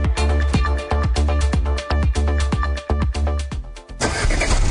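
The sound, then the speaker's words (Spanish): Starter cranking of a JMC Grand Avenue pickup truck's Ford Puma 2.3 turbo diesel engine: a rapid, rhythmic chugging that lasts about four seconds before the engine fires and settles into a fuller, steady run. “Hay camionetas que sirven para el día a día y está la Grand Avenue de JMC que va más allá. Respaldada con garantía de por vida en su motor Ford Puma 2.3 Turbo Diesel.”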